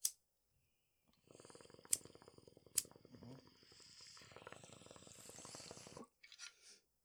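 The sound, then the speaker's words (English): Water bubbles and gurgles through a bong as it is smoked, a faint stream of rapid pulses lasting several seconds, broken by a couple of sharp clicks. “I also take a hit of this bong real quick”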